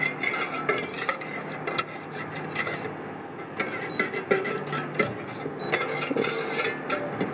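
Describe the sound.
A spoon stirs melted oils and waxes in a pot while making a cosmetic mixture. Faint scraping and light clinks against the pot repeat in an irregular rhythm.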